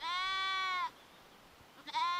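A sheep from a flock kept with a livestock guard dog gives one long, steady, high bleat, then a second bleat begins after a short quiet gap and is cut off.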